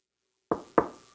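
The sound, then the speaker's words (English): Two crisp knocks on a door, a housewife rapping in quick succession, each a sharp woody tap with a brief ringing tail, coming after silence. “The housewife knocks the door,”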